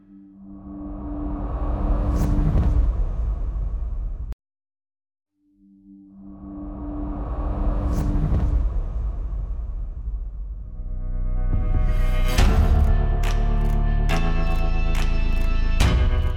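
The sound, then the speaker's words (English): A racing motorbike in a Supersport TT road race roars past in two loud swells of engine noise separated by a brief silence. It ends in a high, buzzing engine howl with sharp pitch steps as it changes gear. “I can hear a bike changing gear behind me.”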